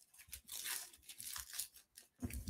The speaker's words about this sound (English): So I'm going to unwrap this gift.